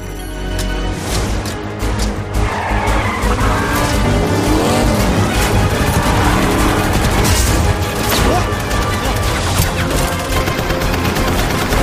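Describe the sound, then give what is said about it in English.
Tires screech as a car drifts during a Kingsman chase scene, a loud, continuous squeal blended with a roaring engine that holds steady for the whole stretch. “Again, this is, I think, my favorite drifting shot in a movie that I've seen”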